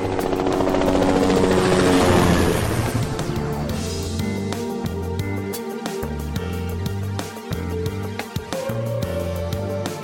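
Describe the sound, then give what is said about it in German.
A helicopter climbs and flies along cliffs, its rotors giving a loud, steady thrum with rhythmic chopping pulses; a broad whooshing swell rises early on before the throbbing settles into an even beat. “Dann stieg der Hubschrauber höher und flog an den Felsen entlang.”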